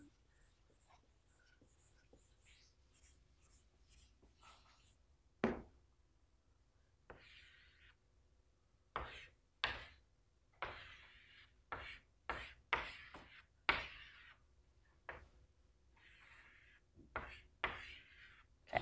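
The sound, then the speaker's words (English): Eraser strokes rub across a board during a lecture on binary search trees: many short, scratchy swipes in irregular bursts separated by quiet gaps. “Can I erase this?”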